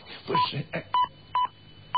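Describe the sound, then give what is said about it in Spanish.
Radio time signal pips on a Spanish station: four short, clean beeps at one steady mid pitch, evenly timed. The first overlaps a brief burst of talk. “¿Por qué suenan las señales horarias si son las 9 y 8?”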